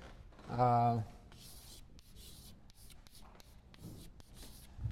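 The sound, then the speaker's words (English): Handwriting of a single word, heard as scratchy strokes after a brief voice. Several short, soft rasping bursts separated by small pauses follow, faint and dry. “I'll write the word.”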